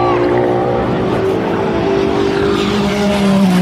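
Race cars roaring past during a race, among them a Ferrari, a Porsche and a Cadillac: a loud, continuous engine drone with a layered harmonic whine whose pitch bends as the cars go by.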